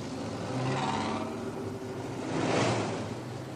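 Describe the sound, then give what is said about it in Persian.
A woman's car arrives, heard as a broad rushing engine and road noise that stays steady and swells twice, once early and again more strongly near the end, with no voices. “ماشین زن برنامه ریز میرسه. زن پیاده میشه.”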